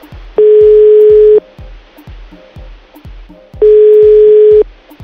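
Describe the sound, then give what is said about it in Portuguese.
Telephone tone after a dropped call: two loud, steady, mid-pitched beeps, each lasting about a second, separated by a pause of roughly two seconds. “Caiu a ligação.”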